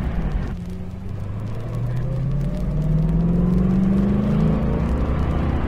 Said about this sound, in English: Here we go. We're in first gear. 7,000 RPM, second gear.